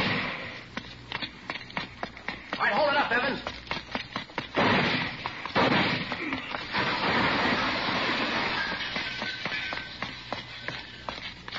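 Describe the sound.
Gunshots ring out in a radio drama shootout, a rapid run of sharp, loud cracks in the first few seconds, followed by a sustained noisy rumble and rustle.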